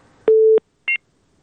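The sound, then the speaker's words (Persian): Telephone line tones after a dropped call: one loud, steady low beep lasting about a third of a second, followed by a shorter, higher two-tone blip, then silence. “متاسفانه تماس رفیع الله از تگاب قطع شد”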